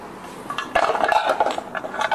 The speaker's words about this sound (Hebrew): אז בואי ניקח סוכר ותה ונערבב, תערבבי.